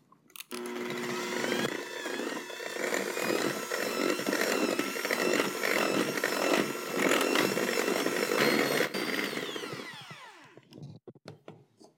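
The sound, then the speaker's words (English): An electric mixer beats two large eggs into creamed butter and sugar for a gluten-free jam cake batter, giving a loud, steady motor whir with a rattling edge for about ten seconds before it winds down and stops. “Now that the butter is fully mixed into the sugar, we're going to add 2 large eggs and beat those in well.”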